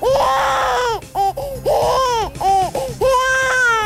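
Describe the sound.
An infant cries in a string of loud, wailing bursts, some long and some short, separated by brief gasping pauses, with no other sounds.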